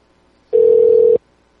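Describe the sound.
A single steady telephone tone heard while dialing a number, a clean mid-pitched beep lasting just over half a second, loud and alone against near silence.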